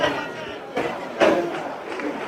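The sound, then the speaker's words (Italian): A football stadium crowd applauds and cheers in a dense, rumbling roar that swells twice into louder surges, with a commentator's voice speaking over the noise. “Applausi adesso per Luca, incitato dai tifosi”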